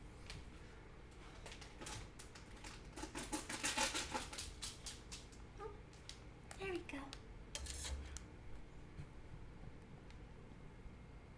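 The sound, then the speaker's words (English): A knife cutting into a plastic package of refrigerated hash brown potatoes produces faint, rapid crinkling and clicking. Many small snaps and rustles cluster together, then thin out into sparse ticks. “How do I open these? Maybe I need to use a knife.”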